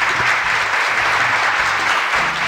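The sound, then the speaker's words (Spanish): Applause from a crowd in the stands, dense steady clapping that stays loud and even throughout, with no talking over it. “Bajan los aplausos de la tribuna popular.”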